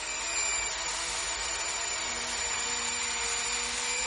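An electric drill runs in a warehouse during a heist: a loud, steady, high-pitched whirring hiss with a faint whine that holds for the whole stretch without a break, and no voices.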